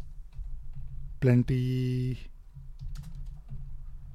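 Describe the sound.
Typing on a computer keyboard: light, quick key clicks over a low steady hum, with a short voiced sound in the middle.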